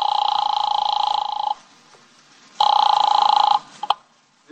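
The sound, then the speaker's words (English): An office telephone rings after dialing: two long, bright, buzzing rings separated by a pause, followed by a couple of short clicks. “I grabbed the office phone and dialed Wolf at once.”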